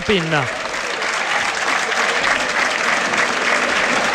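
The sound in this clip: Football stadium crowd at the Del Duca applauding as the number 25 player is substituted off, a broad, sustained wash of clapping, with a voice speaking briefly at the start.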